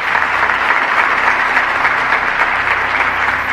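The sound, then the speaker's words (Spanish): Sustained applause fills the Uruguayan Senate chamber at a politician's farewell, a loud, even wash of many hands clapping with no break from start to finish. “Esos aplausos son para él.”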